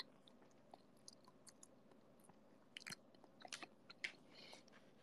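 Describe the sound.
Faint chewing of hamburger steak: a few soft, moist crunching bites, clustered mostly in the second half, with no talk.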